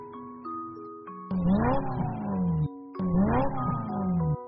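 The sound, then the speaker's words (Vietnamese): A Yamaha YZF-R1 sport motorcycle speeds along a road, its engine surging twice in loud roaring bursts that climb in pitch and then drop away, after a steadier, quieter engine tone at the start. “Chiếc xe mô tô Yamaha IZF-R1 phóng như bay trên đường, khiến mọi người phải khiếp sợ”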